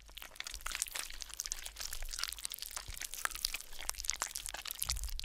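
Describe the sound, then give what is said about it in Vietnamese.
Gruesome, wet chomping and crunching, as if something is chewing inside a coffin. Many quiet, irregular crackling bites run on continuously without pause. “thì tự nhiên nghe thấy những âm thanh ghê rợn, nhóp nhép nhọp nhẹp.”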